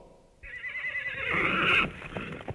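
A horse gives one long, loud whinny lasting more than a second, which swells and then fades out, with faint rustling beneath it.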